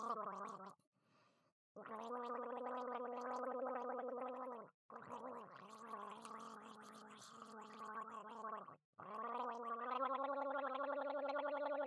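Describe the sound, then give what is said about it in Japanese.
Throaty, wet gurgling as ramen is slurped noisily. The low, buzzing, voiced bubbling runs in several sustained stretches broken by short pauses. “ゴボゴボと音を立てながら下品にラーメンを飲む姿楽しんでください。”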